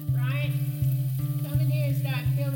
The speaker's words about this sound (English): Something's on the skillet. What is it? That's Mom sautéing onions for a dish.